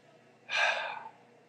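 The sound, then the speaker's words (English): A single airy breath, voiced as an imitation of how the divine name would be pronounced, a soft rush lasting about half a second and heard alone against quiet. “if you were to give it a shot, it would sound something like this.”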